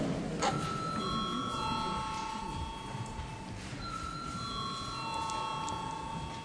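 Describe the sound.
A bell rings in a parliament chamber before a vote: two chime-like rings, each a set of steady ringing tones with a slight drop between them, moderately loud over a faint background hush.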